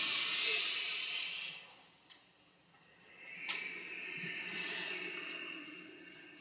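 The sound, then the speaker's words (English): A deep, slow breath with a soft, airy hiss: one long breath, a quiet pause, then another drawn-out breath that fades gently. “If you're still with us, take a lovely deep breath in.”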